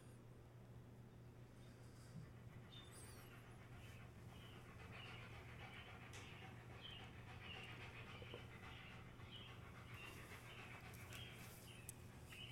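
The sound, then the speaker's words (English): A dog pants faintly in quick, soft rhythmic breaths, low under a steady background hum. “That's my dog. He's okay.”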